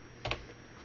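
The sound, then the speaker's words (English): Dice are scooped up and rolled during a tabletop game, a quick faint clatter of a couple of sharp clicks in the middle of an otherwise quiet moment. “Oops, wrong dice. Pick up that dice.”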